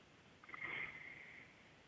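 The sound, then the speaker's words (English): One deep inhale is drawn through the nose during a guided breathing exercise, a soft, airy sniff lasting about a second that swells and then tapers off. “So a deep inhale through the nose, filling up our lungs all the way.”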